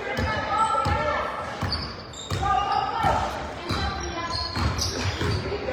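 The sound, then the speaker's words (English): A basketball bounces as a player dribbles it down the court during a school game, a steady series of rubbery thuds in even rhythm, with people talking over it. “taking the ball down the court.”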